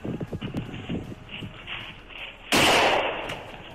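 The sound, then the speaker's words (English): Gunfire bursts out as a sudden loud blast near the end, holding briefly and then fading. Before it come a few quieter low thumps and a faint rumble. “Just fire! Just fire!”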